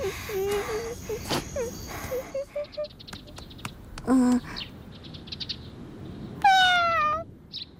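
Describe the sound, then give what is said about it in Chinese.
A hungry cat meows a couple of times, with drawn-out tonal cries standing out over a busy background of chirps and soft rustling. “猫猫，你是不是也饿了？你等着，我给你拿。”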